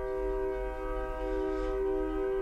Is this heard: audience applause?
no